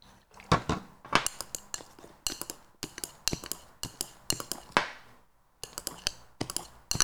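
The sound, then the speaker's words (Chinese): Slime is stirred in a bowl with a stirring stick, giving many quick, sharp clicking and tapping strikes in an uneven rhythm with a brief pause midway. The sound is fairly quiet, with no talk. “然后要搅拌到什么程度呢？就是搅拌到粘筷子不粘碗，粘你的搅拌棒不粘碗。”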